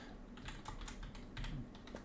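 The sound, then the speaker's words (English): Typing on a computer keyboard, a quick, uneven run of many soft key clicks, faint and continuous, with no talking. “Oh, my God. I can't type. There we go.”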